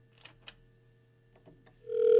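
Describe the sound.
Ringback tone of an outgoing telephone call: a steady buzzing tone switches on near the end after near silence broken by a few faint clicks.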